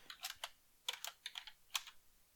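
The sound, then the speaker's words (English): Typing on a computer keyboard: faint, irregular key clicks in a few quick bursts with brief gaps between them, heard alone with no talking. “I'm going to type my answer in.”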